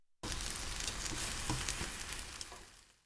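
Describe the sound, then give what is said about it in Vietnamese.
Egg mixture sizzles in a pan as it goes back in to cook its second side: a steady, bright, hissing fry that starts abruptly after a short silence, holds evenly with faint crackles, then eases off slightly near the end. “cho phần trứng vào chảo trở lại để làm chín cái mặt còn lại.”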